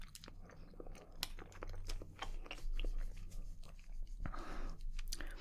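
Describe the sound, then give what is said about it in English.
An apple-flavoured Japanese gummy candy is chewed, with many soft, sticky chewing and biting sounds repeating steadily and fairly quietly, and no talking. “It tastes like a Haribo gummy bear but better, and I really like apple flavoured sweets.”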